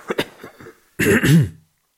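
Throat clearing to dislodge a piece of pumpkin stuck in the throat: a few soft, short rasping bursts, then one louder and longer rough clearing, heard alone.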